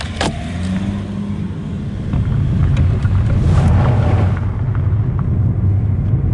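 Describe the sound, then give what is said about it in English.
A car drives along a highway through green farmland near Gore, giving a steady engine and road rumble with buffeting wind noise that grows slightly louder midway. “We wind our way out of the shed and back towards town. A short 10-minute drive, but one that takes us through Gore's green farmlands, down the highway and through the small but lively town.”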